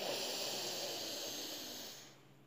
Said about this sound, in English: And here I invite you to take a deep breath in.